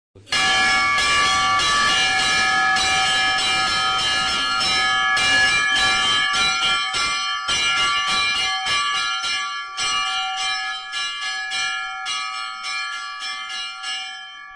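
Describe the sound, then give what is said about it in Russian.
Church bells ring at a small church: many overlapping strikes clang in a steady, busy peal with bright sustained tones, and the ringing thins out and fades slightly toward the end. “И вот как звучат колокола этой церкви.”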